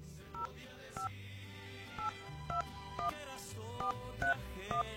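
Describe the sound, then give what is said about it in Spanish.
Telephone keypad tones beep out a number being dialed for a call-in giveaway, a series of short, evenly pitched dual-tone beeps spaced unevenly over a low, steady background. “La persona tiene que contestar la llamada telefónica. Vamos a marcar.”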